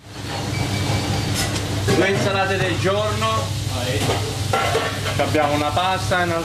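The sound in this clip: Guanciale sizzles in a frying pan for carbonara in a busy Geneva restaurant kitchen, a steady crackling hiss that runs throughout beneath a voice talking over it.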